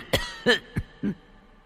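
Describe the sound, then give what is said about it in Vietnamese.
Coughing from an exhausted old man: four rough, hoarse bursts in quick succession, strained and partly voiced, heard alone with no talk. “Trong giọng nói của lão nhân dường như đã kiệt sức, cứ như thế mà ho.”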